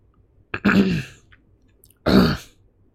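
Throat clearing from a man whose throat is dry from panic and smoke: two rough, gravelly bursts, a longer one followed after a quiet pause by a shorter one, with no speech.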